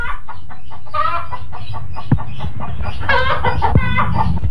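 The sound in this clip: A chicken clucks in a quick, loud series of calls, with a couple of sharp knocks among them.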